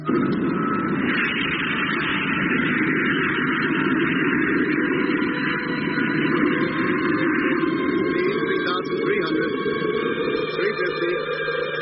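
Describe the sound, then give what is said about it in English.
A rocket motor firing gives a steady, loud roaring rumble with a low droning hum that continues unbroken throughout. “Stand by for firing. Two. Firing imminent. One. Contact.”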